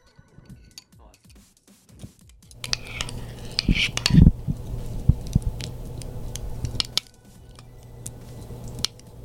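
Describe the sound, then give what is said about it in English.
Metal spoon stirring a pot of beans, giving many quick clinks and scrapes that run for about four seconds before stopping. “Stir it up real quick. Stir it up.”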